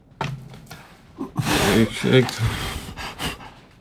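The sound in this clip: Someone blows out a candle with a few breathy, airy puffs of breath in the middle of the stretch, mixed with talking voices.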